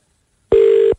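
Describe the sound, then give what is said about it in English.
A telephone ringback tone right after a number is dialed: one steady, mid-pitched electronic ring burst lasting under half a second, loud and alone with no voices. “punch in the number. Here we go. Just putting it in now. All right, it's ringing.”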